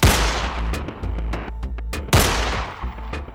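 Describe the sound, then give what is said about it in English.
Two loud 9mm pistol shots fired into the air, about two seconds apart, each a sharp crack trailed by a rolling, rumbling decay with scattered smaller crackles. “she pulls her 9mm from the holster in the small of her back and she goes, well, on your marks. And then fires two shots over her head into the air.”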